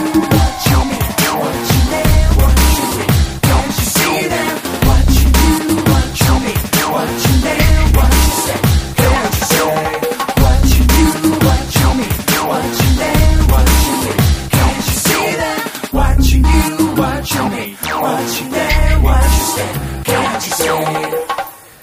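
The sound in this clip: Live drum and bass music: loud, fast, driving breakbeats with heavy pulsing bass hits at a steady interval and dense layered synths, playing continuously throughout.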